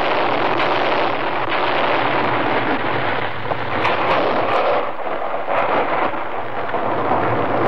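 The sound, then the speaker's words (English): Deep rolling rumble of blank artillery shells fired by a forest service team to clear avalanche snow in the Colorado Rocky Mountains, heard as a loud, steady, broad roar with no clearly separated blasts. “The sound of a United States Forest Service artillery team clearing an avalanche in the Colorado Rocky Mountains. The sound waves of the blank artillery shells loosen the stressed snow.”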